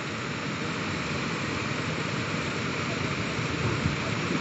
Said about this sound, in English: I invite you to come nearer. There is a fall, as you can hear from the sound.